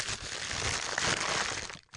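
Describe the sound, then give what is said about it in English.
A paper bag crinkles and rustles as it is pulled off a glass Jim Beam bottle, a steady, fairly quiet papery crackle that continues almost throughout before a brief dip near the end. “What is this? Starter logs? Stuff wrapped in paper bag. Oh, wait. Looks like a bottle.”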